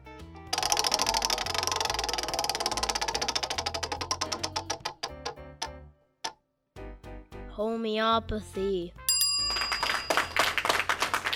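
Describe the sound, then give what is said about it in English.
A prize wheel spun for a random pick, its pointer ticking rapidly at first, then the clicks spread out and slow until the wheel stops about halfway through, followed by other brief sounds. “Give the old Wheel of Fortune a spin and see which one we land on.”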